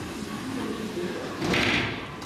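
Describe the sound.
A sliding door to a hospital delivery room is pushed open during a night shift. A brief, soft rushing slide rises near the end over a low, steady background hum.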